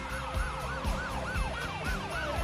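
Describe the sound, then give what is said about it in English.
Police car sirens wail as squad cars pull out of a station parking lot, a loud, fast, steady up-and-down cry repeating about five times, roughly every half second, with a low rumble beneath. “Back home, squad cars peel out of the police station parking lot, their lights flashing.”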